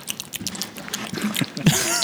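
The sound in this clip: A voice imitates the sound of stirring mac and cheese, made right into the microphone as a string of wet, sticky smacking and gurgling mouth noises that grows louder toward the end.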